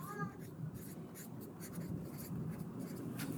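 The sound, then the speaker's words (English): A pen writes on paper in steady, scratchy strokes that continue through the whole stretch at a soft, even level over a low background hum. “I'm going to write this down because this feels like a room worth exploring.”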